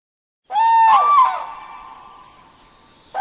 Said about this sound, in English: Cranes, returning from their southern wintering areas, reach Finland's wetlands already in early April with their elaborate and noisy courting displays.